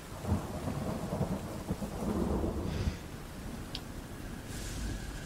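A thunderstorm with heavy rain: a dense, steady downpour hiss over low, rolling thunder rumbles. The loudness stays fairly even throughout, with no voices.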